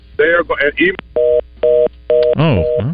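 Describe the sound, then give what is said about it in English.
A phone line disconnecting on a dropped call: three steady, flat electronic tone bursts with short gaps between them, with voices speaking before and around the tones. “I guess we dropped you, man. Call back.”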